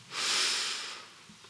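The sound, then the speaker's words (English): A single deep breath swells into a loud, airy hiss, then slowly fades away, with no voices alongside. “And I invite you to take a deep breath.”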